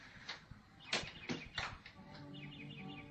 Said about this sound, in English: There's no music, only a bird singing.